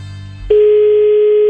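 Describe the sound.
Ringing tone of a telephone call just placed: one steady, mid-pitched tone lasting about a second, with a low hum before it.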